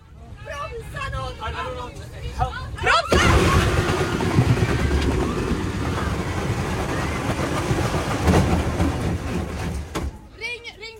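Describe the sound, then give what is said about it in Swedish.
A bus steered into a central crash barrier grinds along it as it slowly stops, making a loud, sustained scraping roar that lasts several seconds, with voices heard before and after it. “De styrde bussen in i mitträcket så att den långsamt kunde stanna. Det här hamnade ju på film såklart och ljud finns.”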